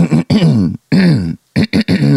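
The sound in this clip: A person's voice imitating someone clearing their throat excessively, a string of short, loud, voiced rasping bursts separated by brief gaps, the last few coming quicker and shorter.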